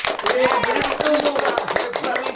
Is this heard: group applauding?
yes